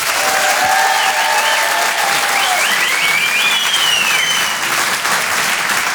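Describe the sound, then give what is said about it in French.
An audience at a comedy show claps loudly and steadily, with a few whistles riding over the continuous applause. “On peut l'applaudir très très fort, Anne Roumanoff sur Rire et Chanson.”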